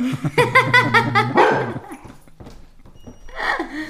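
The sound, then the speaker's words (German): A dog barks while packages are being delivered, giving a rapid run of high, yapping barks followed by quieter, rougher sounds and another bark near the end. “Das ist mein Hund, weil ich Pakete geliefert bekomme gerade und meine Mutter auch noch kommt.”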